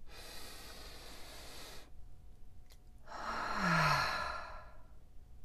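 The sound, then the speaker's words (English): A deep breath taken during a meditation exercise: a soft, airy inhale, a short pause, then a longer and louder breathy exhale that swells and fades, with no talking. “Go ahead, take a deep breath.”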